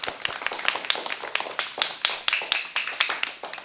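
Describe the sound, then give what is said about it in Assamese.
Sharp, separate claps from an audience at a children's singing event, many crisp hand claps in a quick, fairly steady rhythm at moderate loudness. “এতিয়া ভাৰ্গৱীৰ কাৰণে আমি কি কৰিম, ডাঙৰকৈ হাত চাপৰি বজাই দিম।”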